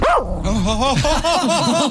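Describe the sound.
A dog barking and yipping in a quick series of short, bright, pitch-bending calls that run together across the whole clip, loud and close with no talk over them.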